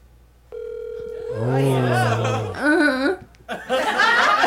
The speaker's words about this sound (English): Siri, call Robert Rodriguez on speaker.